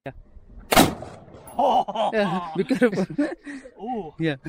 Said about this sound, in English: So I'm going to play you a clip of him shooting this guy's M16.